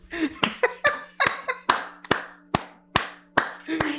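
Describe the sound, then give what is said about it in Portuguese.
Small, sparse claps from an audience: separate, sharp hand claps at a slow, uneven pace, each one distinct, with some laughter mixed in among them. “Small claps.”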